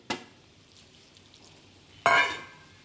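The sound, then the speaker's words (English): Flour being stirred into grated radish to make lo bak gou batter: a short scrape at the very start, a quiet stretch, then a louder, longer scraping clatter near the end. “Give that a mix. It should come together in like a loose batter. Make sure to stir it well so there are no little clumps of flour.”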